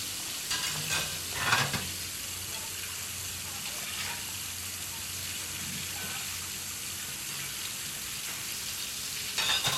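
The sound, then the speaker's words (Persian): A young man washing dishes in a kitchen: a steady rush of running water, with a few louder bumps and splashes early on and again at the very end. “مرد جوانی تو آشپزخونه ظرف میشوره.”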